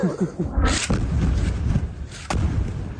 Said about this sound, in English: This is the moment an attack targeted a desalination plant in the Sheikh Radwan neighbourhood. A mosque was also hit.